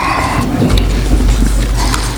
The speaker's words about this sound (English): It's all right, we need the rain. Farmers need the rain, I think.